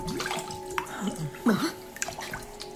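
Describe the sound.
Water draining from a bathtub, with soft gurgles, a few drips and small splashes over a steady low hum, fairly faint with uneven bursts.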